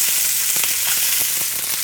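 Steady sizzling of mackerel roasting in a pan over medium heat, alongside new potatoes, a dense continuous hiss broken by scattered light crackles and pops, with no talk.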